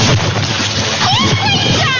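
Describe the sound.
A bucket of water thrown over people lands with a broad splash that keeps rushing and sloshing for the full two seconds, with voices over it.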